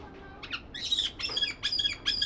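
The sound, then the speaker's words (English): A black-headed caique, a small parrot kept at a zoo, gives several harsh, high-pitched squawks in quick bursts separated by short gaps. “Today is a big day in the life of Mo, a black-headed caique.”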